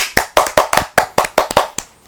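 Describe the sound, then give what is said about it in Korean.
Hands clapping in welcome as a six-year-old girl joins a recording session: a short, loud burst of many sharp claps at a quick, slightly uneven rhythm, with no talk over it. “박수.”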